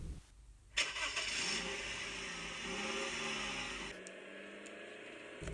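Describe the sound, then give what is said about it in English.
A car engine cranks and catches with a sharp burst, then runs with a steady revving drone as the car starts to drive away, the engine note shifting partway through. “I turn away and start to drive away.”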